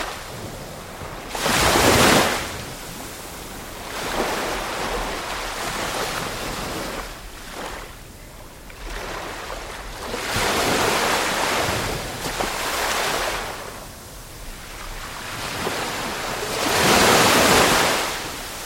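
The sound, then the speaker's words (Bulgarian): Waves wash onto a narrow beach sheltered by mangroves along a calm, shallow shore. Several soft surges rise and fade in a slow, irregular rhythm, accompanied by a low rush of wind. “Тоа е звукот на идиличниот двор на Рики Даниел. Тесна плажа, заштитена од мангрови и мирен плиток брег.”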